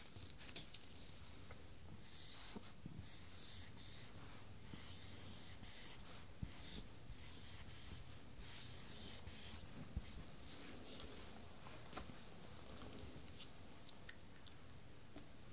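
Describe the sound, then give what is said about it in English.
Soft scratchy strokes of a single Greek word being written by hand, a steady faint scraping broken by short pauses between strokes, with no talking. “first, I'm going to write one Greek word, and I want you to have a go reading it.”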